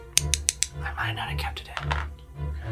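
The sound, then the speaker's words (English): Two dice clicked together give four quick, sharp clicks in a short burst, and then a person speaks. “This is the sound of two dice clicking.”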